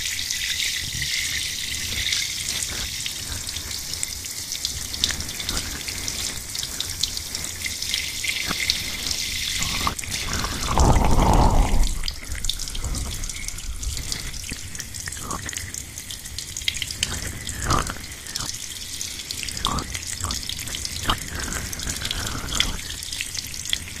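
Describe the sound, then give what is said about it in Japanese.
Water runs from a tap while hair is wet at a salon, a steady rushing stream with a louder, fuller surge midway before it settles back. “それでは髪を濡らしていきますね。”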